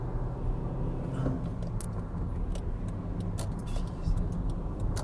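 Steady road noise from a car driving on a freeway: a continuous low rumble and hiss with occasional faint light clicks or rattles, and no voices.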